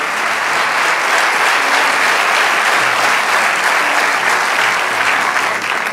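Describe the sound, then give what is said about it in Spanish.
Sustained applause from an audience during a sermon, dense and even clapping that stays loud and steady throughout without a break. “Vamos, dale ese aplauso al Rey de Reyes.”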